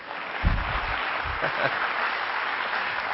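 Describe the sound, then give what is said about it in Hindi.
An audience at a motivational talk claps steadily, a dense, even wash of applause that lasts throughout. “Taaliyan achhi tarah se bajao.”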